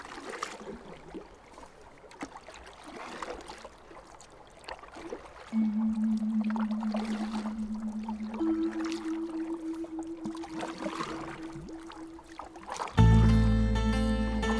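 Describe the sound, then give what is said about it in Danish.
Canoes paddled on water give soft, continuous splashing and watery ambience. A sustained low tone joins partway through, and a louder musical chord enters at the end. “så satte sig i kanoerne og padlede mod horisonten”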